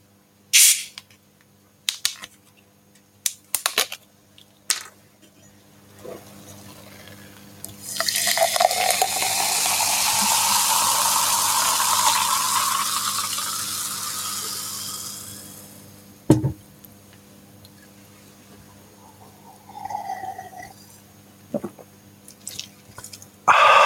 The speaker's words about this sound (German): Als erstes wird die Stimme geölt mit etwas Cola.